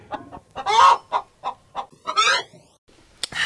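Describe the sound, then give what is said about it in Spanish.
A free-range chicken clucks and squawks in a busy run of many short, loud calls, with a few longer strained cries breaking through the choppy pattern. “Permítame hacerle un regalo, señor Wemmick. Eh, le daré el mejor pollo de corral que tengo.”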